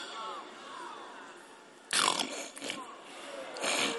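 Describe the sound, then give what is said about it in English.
A voice imitates someone clearing their throat and hawking up phlegm during a sermon. A few harsh, raspy guttural bursts follow a stretch of speech. “They cleared their throat.”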